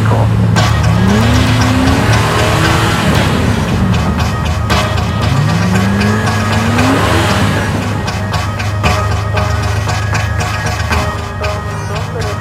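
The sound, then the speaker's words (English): A car downshifts and accelerates hard, its engine roaring loudly as the revs climb in two rising surges, over a continuous heavy drone of engine and road noise. “For no real reason, she downshifted and floored it.”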